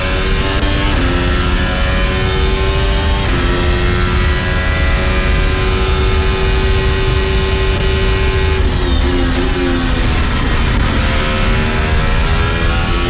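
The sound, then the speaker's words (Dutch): Onboard engine sound of a Formula 1 car racing at the British Grand Prix: a loud, continuous high-pitched howl that holds steady, dips briefly a few times as gears change, then climbs again. No voices are heard. “Onboard geluid van Leclerc met voor ons is Lance Stroll.”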